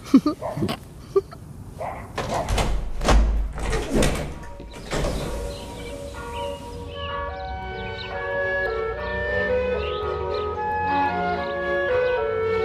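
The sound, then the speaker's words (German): A door is opened: a few sharp clicks, then several loud rushing bursts, followed by a long tonal creak or squeal that holds steady to the end. “Ich habe die Tür etwas aufgemacht.”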